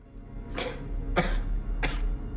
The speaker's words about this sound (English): John Bell coughs up copious amounts of blood onto his hands and his handkerchief